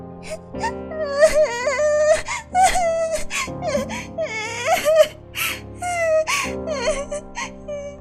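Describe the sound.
A girl who slipped, fell and hurt her ankle cries in drawn-out, wavering wails and whimpers. Her sobs rise and fall repeatedly over a sustained musical backing.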